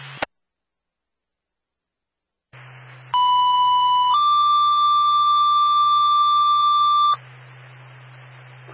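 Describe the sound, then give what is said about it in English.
Radio dispatch alert tones page a town ambulance to a medical emergency: a brief blip, a pause, static hiss, then two loud sustained tones, the second slightly higher and longer, before the hiss returns. “Repeating the tone of the Recon for Springfield, A3 is off on South Street for medical emergency.”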